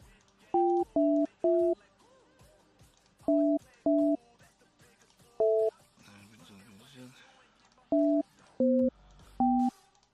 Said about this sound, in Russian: Так, сейчас еще набираем номерок.